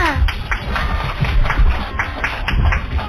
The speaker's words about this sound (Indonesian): Mana nih tepuk tangannya?